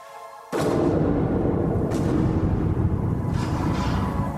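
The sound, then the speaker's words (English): Three rifle shots are fired at night among sand dunes. Each loud booming crack comes at a roughly even interval, with a continuous rumbling noise filling the gaps between them. No voices are heard. “I raised my rifle 3 times. And shots.”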